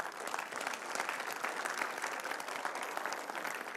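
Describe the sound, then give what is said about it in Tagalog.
A church audience gives a steady round of applause for its volunteers. The dense, even clapping keeps a constant level from start to finish. “I want to honor and appreciate even po yung mga volunteers natin dito. Pwede po ba natin silang palakpakan?”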